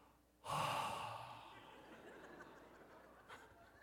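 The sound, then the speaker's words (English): A person imitates annoying breathing out through the mouth: one sudden, breathy, forceful exhale that trails off slowly, faint and alone. “He would like breathe out of his mouth in an annoying way.”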